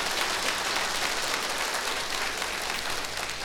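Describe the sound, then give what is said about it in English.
Warm audience applause in Winnipeg greeting a cimbalom player, a thick, continuous wash of clapping at a steady, fairly loud level from start to finish, with no voices over it. “A big hand for him, and give him a real fine, warm Winnipeg welcome, ladies and gentlemen.”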